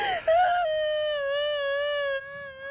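A woman's crying rises into a long, sustained, high wail that holds a steady tone with a slight waver before cutting off, heard alone without talk.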